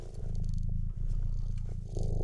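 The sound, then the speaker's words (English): A person imitates a cat's purr, producing a low, steady rumbling made of fast rhythmic pulses that runs continuously and fairly loud for about two seconds, with no talk over it. “It's the purr without the dander.”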